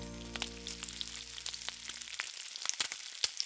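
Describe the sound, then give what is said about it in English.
Peppercorns sautéing in olive oil over low heat give soft, scattered crackles and small pops, faint throughout, with a steady low hum beneath that cuts off partway and leaves the sizzle alone. “And I'm just gonna pour that oil over those peppercorns. And like I said, we're gonna saute them on low for about 5 minutes.”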